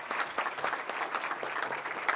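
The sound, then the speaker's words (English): Audience applause welcoming a speaker to the podium at a chamber event: dense, steady clapping from many hands, holding an even level throughout with no voices over it. “You can clap.”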